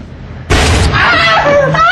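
A single gunshot cracks out as a sudden loud blast, followed at once by a man's pained yell.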